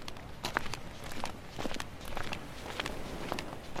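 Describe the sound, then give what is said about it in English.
Footsteps of a person striding with long steps: a few soft, irregular thuds and scuffs, quiet and alone with no talking. “Who is this striding up to the man with the box?”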